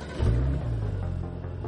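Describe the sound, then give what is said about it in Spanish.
A Porsche engine rumbles as the car drives out of a workshop, the low drone swelling abruptly into a rev and then holding a steady, deep hum to the end. “Mikkel se monta en su Porsche y sale del taller.”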